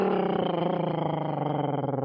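A tiger roars, a loud, sustained, low growling rumble that holds steady for about two seconds.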